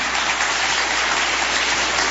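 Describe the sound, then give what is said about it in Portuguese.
A church audience applauding to welcome the pastor at an evening service. Dense, steady clapping fills the whole stretch evenly, with no pauses or voices. “Vamos receber o pastor com as palmas para Jesus.”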